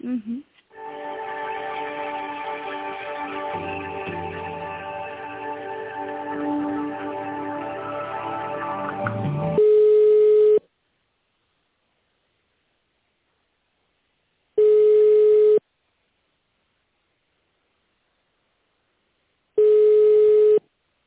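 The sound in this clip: Telephone line tones during a call transfer: a stretch of hold music, then three long, steady ringing tones about five seconds apart with silence between them.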